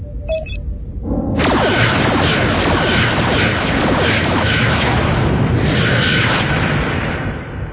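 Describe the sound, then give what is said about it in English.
Sci-fi photon torpedoes fired for a warning display blast: a brief electronic beep, then a loud, dense roaring whoosh and rumble that starts suddenly and sustains for about six seconds before easing off, with no voices. “Photon torpedoes ready, sir. Set them for a display blast 1,000 meters short of the planet's surface. Set. Fire.”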